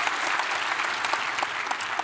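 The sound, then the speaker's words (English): Church audience applauding to welcome one another across several campuses of Fairhaven Church: many hands clapping in a dense, steady patter at moderate volume, unbroken throughout. “by applause, would you just help me welcome each other, all the different campuses, just welcome each other.”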